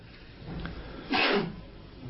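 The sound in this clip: A single sharp sneeze bursts out during a religious lecture, standing briefly above a low, steady background hum.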